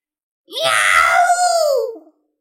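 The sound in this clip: A giant horned mountain cat, several meters long, lets out one drawn-out wailing cry. The cry is loud and strongly tonal, and its pitch sags downward as it fades.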